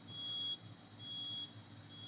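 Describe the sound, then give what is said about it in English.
A neighbor's smoke alarm sounds two faint, high-pitched beeps, each about half a second long and evenly spaced, over a low steady background hum. “this neighbor's smoke alarm is really driving me nuts.”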